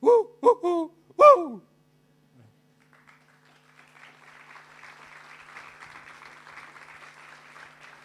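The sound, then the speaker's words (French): Hooting calls of a spotted owl from the United States: two short hoots close together, then a longer one, each with a falling tail. After a brief pause, sustained applause from an audience follows. “je vais vous, vous donner euh, le merci de la chouette tachetée.”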